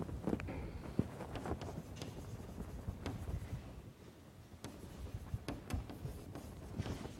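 Scratchy strokes of writing on a board during a lecture, arriving in many short bursts and steady stretches of scraping, with brief pauses between them.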